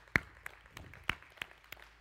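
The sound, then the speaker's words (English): Sparse hand claps from a church audience welcoming online viewers, a handful of sharp, faint claps at a fairly steady pace over low background noise. “First of all, I want to welcome everyone who's joining us by Facebook Live. Let's give it up for them.”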